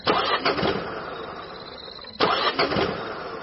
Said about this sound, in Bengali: তারপর ইঞ্জিনের বিকট একটা গোঙানি শোনা গেল।